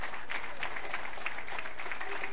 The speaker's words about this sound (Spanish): Tome su asiento, hermano, y le damos palmas de alabanza para el que vive.